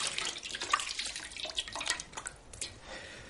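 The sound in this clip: Running tap water splashes softly as hands are washed in a doctor's consulting room, a faint, steady, hissing stream with small irregular splashes.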